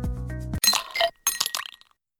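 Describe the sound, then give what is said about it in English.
Sharp, bright clinks ring out in a quick cluster of a few metallic or glassy strikes, each with a short ringing tail, heard alone without talk and fading to silence. “That was another good clink. That was an excellent clink.”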